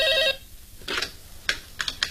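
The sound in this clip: A brief electronic telephone ring that cuts off abruptly, followed by a few sharp, light clicks.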